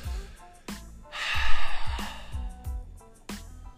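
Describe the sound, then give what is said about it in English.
A long exhaled breath during a guided prayer breathing exercise: a soft, airy rush that swells and fades over under a second, with low sustained tones beneath. “Let's go ahead and just exhale those issues and challenges, those situations and problems. Go ahead and give them on to the Lord now. Just go ahead and exhale.”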